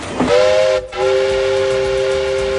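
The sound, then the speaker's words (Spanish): A new train's whistle blows loud and steady as a clear, sustained harmonic tone, briefly broken early on, then held without a pause for nearly two seconds. “Uy, madre, que como pita esto, de verdad, el tren. Cómo se nota que es uno nuevo y no como los de Oscar Puente.”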